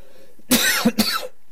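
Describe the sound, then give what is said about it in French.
Two harsh human coughs, each a short explosive burst, the second following closely after the first, heard alone with no talk around them. “J'en tousse.”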